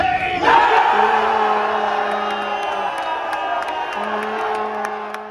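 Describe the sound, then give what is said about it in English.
Tottenham Hotspur fans roar and shout together during the Tottenham Hotspur versus Everton match, celebrating a 2-0 win. The crowd noise is loud and sustained, peaks early, then eases slightly while shouting continues. “Spurs fans there were loud and proud, and excited to see a 2-0 win.”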